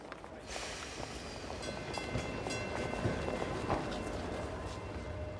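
A crowded city tram rumbles along with a steady, low rolling noise and faint rattles that continue unbroken and fairly quiet from start to end.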